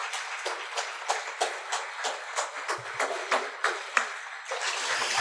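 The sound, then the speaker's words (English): Water splashes rhythmically during a baptism by immersion in a baptismal service, a series of many quick, moderately loud sloshes at a fairly even pace. “I baptize you in the name of the Father and of the Son and of the Holy Spirit, buried with him through baptism into death, raised to walk in newness of life.”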